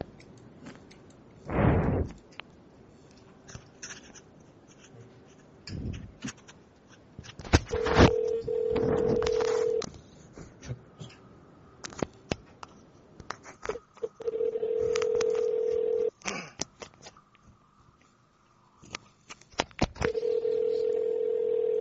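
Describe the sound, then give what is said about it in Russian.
Telephone dialing with a steady dial tone that comes back in a few long stretches, broken up by scattered clicks and short keypad beeps. Fairly faint overall. “Набирай”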